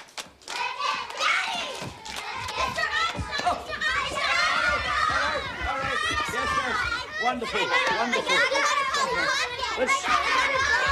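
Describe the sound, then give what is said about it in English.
Girls chanting and slapping each other's hands in pairs at a children's birthday party, a dense, continuous din of young voices with busy hand slaps and claps throughout. “Paul arrives home to find a children's birthday party in progress, pairs of girls chanting and slapping each other's hands.”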